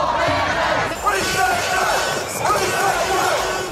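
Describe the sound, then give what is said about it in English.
Anti-mandate protesters in the streets of an Australian capital city chant in unison, a loud, dense crowd with rhythmic rising and falling shouts. “So that's the sound of tens of thousands of anti-mandate protesters taking to the streets in capital cities right across the country over the weekend.”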